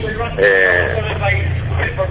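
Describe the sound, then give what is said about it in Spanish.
Horn sounding to announce a municipal workers' mobilization: a steady, droning horn blast runs under voices that talk over it, heard through a narrow, phone-like line. “Disculpame que está la bocina.”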